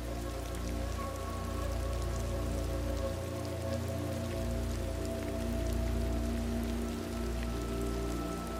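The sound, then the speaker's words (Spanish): Soft rain falls steadily, a gentle, even patter with a faint low hum beneath it. It continues without a break and no voices are heard. “Quizás tumbarte y descansar mientras escuchas el suave murmullo de la lluvia que te envuelve.”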